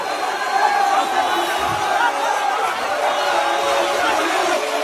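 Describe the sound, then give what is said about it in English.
A crowd cheers a hero's welcome in Mogadishu, a dense and steady roar of many mixed voices that stays loud throughout. “That's the sound of Omar Artin receiving a hero's welcome in Mogadishu”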